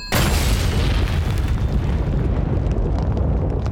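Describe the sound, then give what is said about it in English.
A telephone exploding gives a loud, sustained boom, a dense rumbling roar that starts abruptly and stays heavy for several seconds with no voices. “Oh, unfortunately... the telephone has exploded.”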